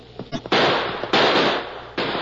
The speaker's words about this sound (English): That last shot hit home.